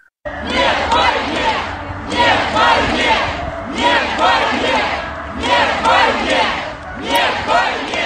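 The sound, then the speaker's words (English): Anti-war protest crowd in St. Petersburg chanting against the war in Ukraine: loud, repeated group chants in a steady, evenly paced rhythm, each phrase rising and falling as one. “And that is the sound of Russians taking to the street for the second straight night to voice opposition to the war in Ukraine. That one, a demonstration in St. Petersburg tonight, chanting no to war.”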